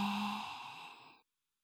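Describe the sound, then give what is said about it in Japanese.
A single breathy exhale during a breathing exercise, a soft sigh-like rush of air that fades out over about a second before silence. “もっともっと、繰り返そう。 吸って、吐いて、”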